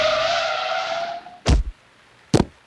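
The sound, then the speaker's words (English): A car on a street brakes hard, its tires squealing loudly for about a second and a half before fading, then two heavy thuds follow as it hits a man. “Quickly, she put her foot on the brake.”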